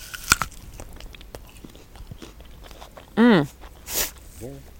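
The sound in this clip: Biting into an early-season perry pear, astringent and juicy: a crisp bite near the start, then soft chewing, with brief murmured vocal sounds later.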